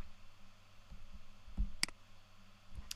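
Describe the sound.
Faint computer mouse clicks, a few short, crisp ticks spaced irregularly apart over a quiet low hum, with no voices.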